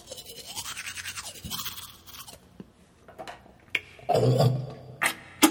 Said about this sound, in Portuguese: Tô escovando o dente, tá? Só um instantinho.